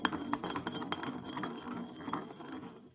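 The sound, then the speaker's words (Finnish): A glass bottle spins on a surface during a game of spin the bottle with truth or dare, giving a steady run of many light glassy clinks and rattles that gradually fade toward the end. “No mä pyöritän nyt, koska mä oon tänään vetovuorossa. Eli pistetään pullo pyörimään. Pyörii.”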